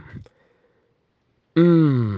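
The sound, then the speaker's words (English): A person voices a low, drawn-out groan as a vocal imitation. It starts after a brief sound and a short pause, then sustains loudly and fades only slightly at the end. “when you get to that place where you feel like you can't pray, don't struggle. Don't struggle. Just groan. Like,”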